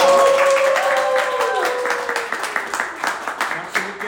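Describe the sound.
Audience applause after a young performer's first concert. A voice rings out at the start, then a patter of clapping rises and continues to the end.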